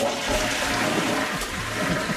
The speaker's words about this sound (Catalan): cadena és un dispositiu de vàter per buidar l'aigua d'un dipòsit